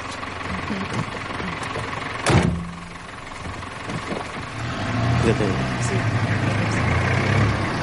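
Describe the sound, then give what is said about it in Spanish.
Car engine rumbling low as the vehicle reverses, with a single sharp knock early on, then a steadier, slightly louder engine drone through the rest. “Judith da marcha atrás y deja solo a Alex.”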